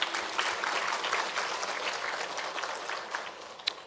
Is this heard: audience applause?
yes